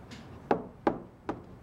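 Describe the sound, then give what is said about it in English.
Three sharp, evenly spaced knocks on a bedroom door, fairly quiet and alone with no voices. “holding a brown Pomeranian, knocks on the door”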